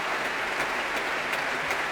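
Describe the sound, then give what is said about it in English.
Concert applause as the audience, chorus, orchestra and soloists all clap after a choral performance. The steady, dense crackle of hands is flecked with a few sharper claps that stand out. “And now bringing all of the chorus to their feet. And the orchestra and soloists joining in the applause, the orchestra now being invited to stand.”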